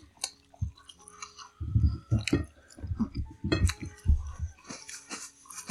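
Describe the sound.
Chewing and mouth clicks while tasting hot sauces: many soft, irregular bites and moist squishing sounds come in uneven bursts, with sharper little clicks between them and no talk over them.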